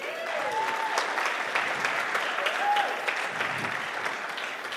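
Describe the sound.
An audience applauds to welcome two people onto a stage, giving steady, dense clapping that lasts about five seconds without letting up.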